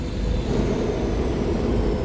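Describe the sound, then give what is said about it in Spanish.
Loud, steady roaring rumble of a spaceship schooner landing at an inn's dock. The deep, noisy roar holds at an even level throughout without a break. “Un ruido estrepitoso llenó la posada.”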